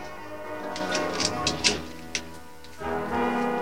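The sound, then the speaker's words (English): Small plastic clicks and taps as a reel of tape is fitted onto a tape player: a run of quiet, irregular clicks, one sharper snap, then softer handling noise. “He picks up a reel of tape and attaches it to a player.”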